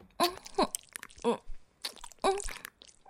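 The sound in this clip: Crunchy bites and chewing on an ice cream bar: several crisp, crackling bites mixed with softer, wet chewing sounds in an uneven rhythm, fairly quiet.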